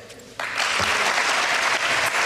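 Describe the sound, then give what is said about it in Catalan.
Applause for Karim Benzema after his farewell speech starts suddenly and continues as a dense, steady wash of many clapping hands. “Més aplaudiments per Karim Benzema, que ja ha acabat el seu discurs, eh?”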